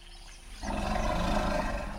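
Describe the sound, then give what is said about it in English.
An African forest elephant calls with a deep, rough, roaring rumble. It swells in after a moment of quieter background and holds steady and loud to the end, with no voices. “That is the sound of an African forest elephant.”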